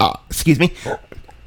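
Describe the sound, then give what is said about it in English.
A person belching, a short, loud, throaty burp with a gurgling voiced quality, followed by fainter throat sounds. “Jeez. Apparently belching is how this show is going to go.”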